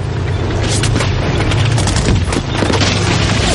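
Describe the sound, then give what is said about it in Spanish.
Heavy gunfire and German bullets striking all around in a World War II battle scene from a war film: a loud, dense, continuous barrage of booms and sharp cracks with no break. “Las balas alemanas se estrellan a su alrededor.”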